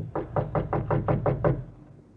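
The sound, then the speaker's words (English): Knocking on a private door off a reception room: a quick, even run of eight hollow knocks at a steady rhythm and moderate loudness, then a short fading tail. “We'll knock once on this private door here and then go in.”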